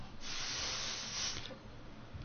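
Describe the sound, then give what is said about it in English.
Breath blown into a breathalyzer: a broad, airy hiss held for over a second, then easing to faint low background noise. “So he's trying to beat the breathalyzer and he... Give us a blow.”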